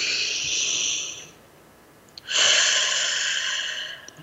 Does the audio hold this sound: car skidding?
no